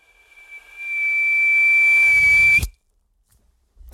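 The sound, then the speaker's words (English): A whistling sound effect of the kind heard at the end of a 1960s movie: one high, pure, sustained tone fades in from near silence, holds steady, then cuts off abruptly. “you fade in a whistling sound like this.”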